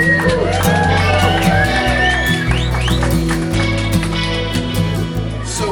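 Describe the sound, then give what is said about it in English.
Loud, continuous crowd cheering with shouts, whoops and high whistles greets a speaker at a grand opening on the Purple Maple Bridge in Northern Kentucky. The roar stays steady throughout, and no clear clapping stands out. “Ladies and gentlemen, please help me welcome Brent Cooper, the president of the Northern Kentucky Chamber of Commerce.”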